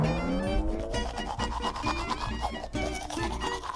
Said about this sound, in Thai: ไป ไปแปรงฟันเลยดีกว่า